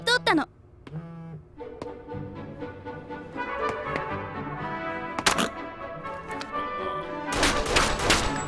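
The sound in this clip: Gunfire crackles amid people talking: a sharp burst of shots around the middle, then a denser, rapid volley of shots at the end.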